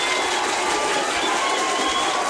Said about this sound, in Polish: Zdecydowanie należą się panu oklaski.